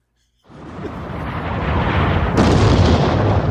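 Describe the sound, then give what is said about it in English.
Artillery shells exploding as troops wait in a trench to attack: a roaring, rumbling blast breaks out of silence and swells steadily, with a sharper crack about two-thirds through, then stays loud to the end. “the first wave is in the trench, and they are fixing bayonets, and the artillery starts coming in.”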